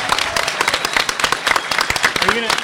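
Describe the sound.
Loud clapping, with many quick, irregular claps packed close together. Brief vocal sounds come through the clapping.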